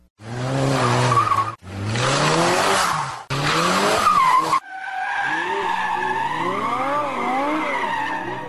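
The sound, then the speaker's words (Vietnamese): Loud, high tire screeches from an old Ford car braking hard to a stop, four sustained squealing bursts in a row, the last one longest with wavering pitch. “có chiếc xe Ford cũ chạy tới rồi đạp thắng ngừng ken két bên tôi”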